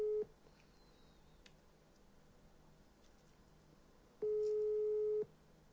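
Ringback tone while a phone number is being called: a steady tone cuts off at the start, then a long pause of low hiss, then one even tone about a second long.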